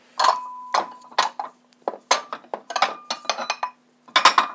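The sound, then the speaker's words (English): A plate clinks and rattles as it is handled in a kitchen while potatoes are being chopped. Many sharp, ringing knocks follow one another in uneven bursts with short pauses between them, and no one talks. “I'll get a plate and chop them.”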